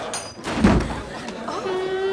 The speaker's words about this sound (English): Armed with a pistol, Austin kicks down a door labelled Gold Members Only